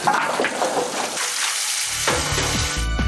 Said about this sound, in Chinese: 冷水下入羊肉。